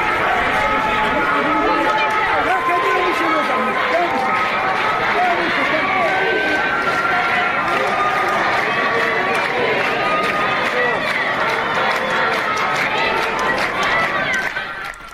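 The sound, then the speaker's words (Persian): Dense, steady crowd noise from protesters at a street sit-in in Mahabad, with many overlapping voices and no clear pauses. “در مهاباد ویدیویی منتشر شده که حضور بسیار قابل توجه معترضان در قالب یک جور تحسن خیابانی در این شهر دیده میشه که صداش الان میتونیم بشنویم.”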